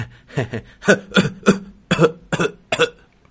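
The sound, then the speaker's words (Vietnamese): Harsh, wet coughing as blood comes up from someone's throat: a rapid series of short, loud, voiced bursts, irregularly spaced, with no other talk. “Một dòng máu tươi từ trong cổ họng theo tiếng ho đi ra, khiến Phong Linh”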